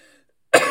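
A single harsh, raspy cough after a big puff of marijuana bursts abruptly out of near silence and stays loud and rough to the end.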